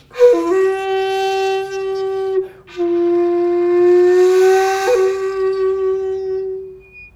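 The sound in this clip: A shakuhachi holds a single sustained note, re, ornamented with nayashi bends that scoop up into the pitch from just below. The clear, breathy tone is played alone and restruck a couple of times, each time with a short upward slide before settling steady.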